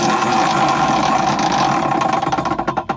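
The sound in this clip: A game-style prize wheel is spun up, giving a loud, dense mechanical whirring that breaks into distinct, separate ratchet ticks toward the end.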